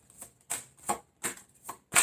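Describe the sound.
Tarot cards being shuffled and drawn: a few short, crisp papery swishes and flicks in an uneven rhythm, with no talk.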